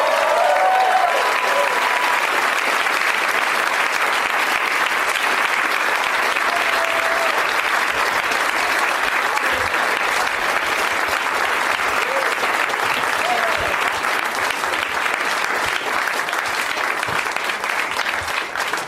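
Audience applause welcoming guests at a live show in Madison, a loud, sustained roar of clapping that stays dense and even for nearly twenty seconds.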